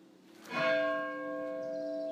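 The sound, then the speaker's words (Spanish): A church bell tolls for the dead, part of a three-bell death knell. It sounds a single soft stroke that leaves a long, steady hum ringing on by itself. “Y los toques de difuntos son con 3 campanas.”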